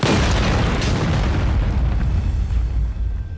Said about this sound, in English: He falls, still holding the primed grenade. Down!